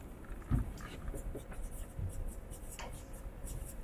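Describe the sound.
Chalk or marker writing on a board during a mathematics lecture: faint, scratchy strokes come in short bursts over a steady low hum, with no clear speech over them.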